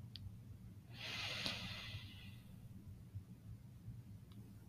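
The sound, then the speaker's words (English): A deep breath and slow exhale during a guided meditation: one long, airy, hissing breath that swells and then fades, soft and unaccompanied by speech. “taking one last hit or deep breath in together as we all exhale to bow and say Namaste and Ashe.”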